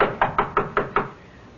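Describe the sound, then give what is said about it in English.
Knuckles rap on a door five times in a steady, even rhythm, each knock crisp and fairly loud, followed by quiet. “knock on the door. Again.”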